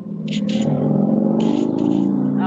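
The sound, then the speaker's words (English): Motorcycle engine revving: a loud, steady, growling drone that holds throughout, with brief raspy bursts on top. “Motorcycle. That sounds like a Hummer. Oh, that's a motorcycle.”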